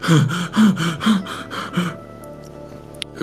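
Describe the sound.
A voice acts out fast, panicked breathing: a quick run of sharp, harsh gasps as a frightened character stares at a strange growth under a lifted shirt, then the breaths fade into quieter, shallow breathing.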